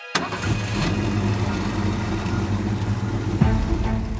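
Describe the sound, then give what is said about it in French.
Engine of a Citroën Traction car driving through the Normandy bocage countryside, a steady mid-pitched drone that kicks in abruptly and holds evenly, with a brief louder surge near the end. “Une Citroën Traction file à travers le bocage normand.”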